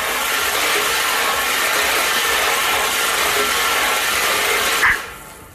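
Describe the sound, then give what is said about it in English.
Steady rattling whirr of balls tumbling inside a prize draw ball machine, a dense continuous clatter that holds for nearly five seconds before a short thump and an abrupt drop to quiet. “All right, let's do it. Let's spin those balls.”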